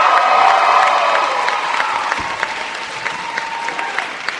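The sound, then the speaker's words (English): Applause and cheering from a crowd of more than 900 people in Prochnow Auditorium, loud and full at first, then gradually easing into scattered, individual claps. “So you can hear them. More than 900 people have crowded into Prochnow Auditorium to hear the Meteorite Men and the CEO of the Planetary Society”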